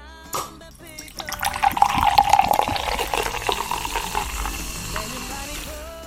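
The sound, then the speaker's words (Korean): Cola gushes into a glass full of ice, opening with a few clinks before a steady pour and a crackling fizz that swells, then gradually settles. “지금부터 얼음 가득 넣은 유리잔에 시원한 콜라 콸콸콸 부어드릴게요.”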